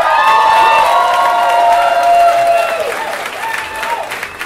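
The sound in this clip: Audience applause and cheering welcoming a storyteller onto the stage, loud sustained clapping with whoops and shouted voices riding over it, easing off slightly toward the end.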